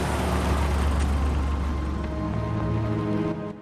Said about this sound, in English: Outside the RSPCA centre, a dark blue car drives slowly by.